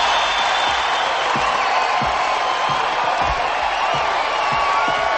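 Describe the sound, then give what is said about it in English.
An audience cheers and whoops in a dense, unbroken roar, with regular low thumps pulsing beneath the crowd noise. “The crowd's enthusiasm for Mike is unrelenting. He has them in the palm of his hand.”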